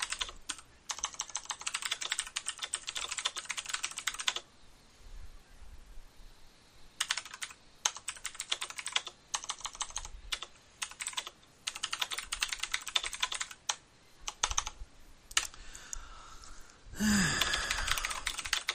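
Keyboard typing as a message to DoorDash is written: a long run of rapid clicking keystrokes, a pause of a few seconds, then another extended burst of typing, ending with a short brighter tone.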